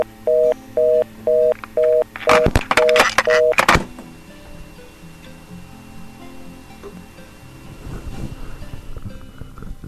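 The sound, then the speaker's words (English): Telephone caller ID tones on a radio call-in line: a quick series of short, evenly spaced two-tone beeps, then a louder burst of harsh, buzzy data noise, followed by quieter line noise. “Gotta turn down the volume so you guys don't decode the touch tones when they call in. I mean, not the touch tones, but the the caller ID tones.”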